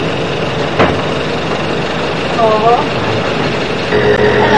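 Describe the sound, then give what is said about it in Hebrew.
A boat's engine runs at sea off Sinai, a steady droning hum with a faint whine and occasional soft clunks, and faint voices can be heard behind it. “וואלה, איזה סירה. סירה ספינתית.”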